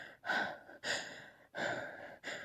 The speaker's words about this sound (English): I gasp.